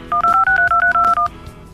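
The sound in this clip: A telephone number is dialed by keypad: a quick, even run of several short touch-tone beeps at shifting pitches, loud and clear, followed by quiet.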